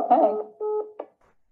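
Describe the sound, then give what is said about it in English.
Electronic tones of a phone call being cut off: a short garbled burst, then a steady beep and a shorter blip before silence. “Melanie said that the phone cut off”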